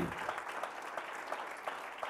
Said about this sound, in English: Let's give the Lord a good hand clap tonight.